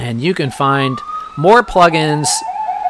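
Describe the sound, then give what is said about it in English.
An emergency vehicle siren outside holds a thin, steady wailing tone beneath continuous talk. It sits faint but clear behind the voice, rising slightly and sustaining through the second half. “I apologize for the siren. It wouldn't be one of my podcasts or one of my streams if there wasn't an ambulance or a police car or anything out there.”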